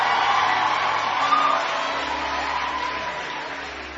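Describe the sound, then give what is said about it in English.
Audience applause during a church sermon: a broad, steady patter of clapping that gradually fades and thins toward the end. “Oh, come on, you should clap for me here.”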